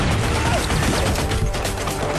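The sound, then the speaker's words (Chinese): Intense gunfire and explosions erupt during an ambush near a boat: a dense, unbroken wall of crackling shots and blasts that stays loud and rough from start to finish with no clear gaps. “在他们附近就响起了激烈的枪声和爆炸声”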